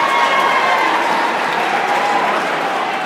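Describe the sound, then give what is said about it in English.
Raucous cheering and applause come from an excited crowd outside a shopping-mall Apple Store as a highly anticipated product goes on sale. The noise is a dense, steady roar that holds at an even level throughout without distinct breaks. “The sound you're hearing is that of raucous cheers and genuine excitement.”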